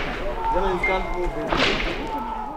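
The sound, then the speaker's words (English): Gunfire rings out during night clashes between demonstrators and security forces, with a few sharp cracks and a loud burst near the end, set against raised voices. “There is too much gunfire to get close, so all I see is demonstrators running across the street in front of me, and security forces unloading their weapons.”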